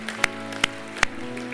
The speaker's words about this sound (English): Would you clap your hands right now as a sign?